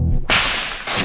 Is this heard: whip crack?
yes